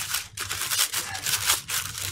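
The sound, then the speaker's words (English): Papers shuffled and rustled by hand, a continuous dry, crinkly rustle with small swells, heard alone for about two seconds. “shuffling papers here”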